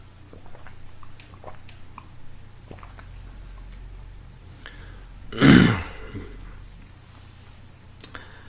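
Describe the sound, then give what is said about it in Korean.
A single gulp of water from a person drinking, one short, fairly loud swallowing sound that stands out alone against a quiet background. “물을 마시도록 하겠습니다.”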